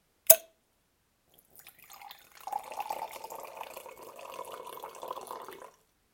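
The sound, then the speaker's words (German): A drink is poured from a bottle into a cup. A sharp click comes first, then a steady splashing trickle runs for about four seconds, swelling and easing before it stops. “Jetzt muss ich mich nur noch ganz leislich an den Räuber anschleichen und mit meiner Gutter seinen Becher füllen.”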